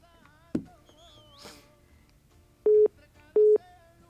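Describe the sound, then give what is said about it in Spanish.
Telephone line tones as a call comes off hold: two short, steady low beeps of equal length, evenly spaced near the end, after an earlier sharp click over a faint background. “Ya nos dejó en espera, ahora sí ya está marcando.”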